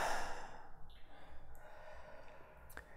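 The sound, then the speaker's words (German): Deep breathing in and out during a guided relaxation exercise: a soft, airy breath at the start gives way to a faint, steady hiss. “Gerne kannst du, wenn du möchtest, noch ein bisschen stärker ein- und ausatmen.”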